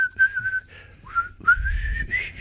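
A person whistles a short tune that is not quite pure in tone. The fairly high, wavering melody runs in a few phrases with a downward slide and rising glides, and low rumbling noise sits beneath it.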